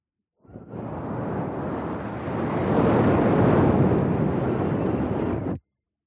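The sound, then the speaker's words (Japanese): Breath blown onto a sleeping person: a sustained airy rush lasting about five seconds that swells partway through, holds steady, then cuts off abruptly. “試しに息を吹きかけてやるかな。”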